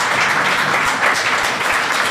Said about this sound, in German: Aber erstmal einen Applaus für unsere Gäste heute hier.